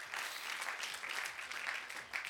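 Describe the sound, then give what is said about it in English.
Applause from a church audience during a service: a steady, continuous patter of clapping hands that stays fairly even throughout, soft overall with no voices standing out. “Let's put our hands together one more time for Jesus Christ.”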